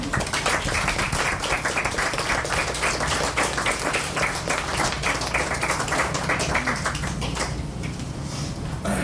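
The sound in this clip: An audience applauds after a poetry reading with steady, dense clapping from many hands that fills the whole stretch and eases slightly near the end.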